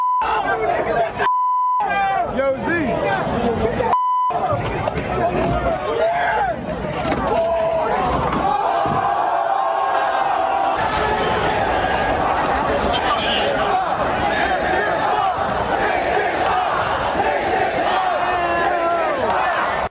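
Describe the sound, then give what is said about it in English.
Rowdy crowd yelling and shouting in New York City streets during a riot after a sports series win, with buses torched and fighting; a loud, dense, continuous roar of voices and babble with no quiet gaps. “buses were torched, rioting in the streets, fighting galore”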